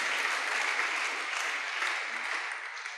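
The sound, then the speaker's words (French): An audience applauds in praise of the Lord during a French-language church service, a thick, even wash of clapping that holds for about three seconds and eases slightly near the end. “Si vous avez cette joie-là, est-ce que vous pouvez acclamer le Seigneur parce qu'il est si merveilleux?”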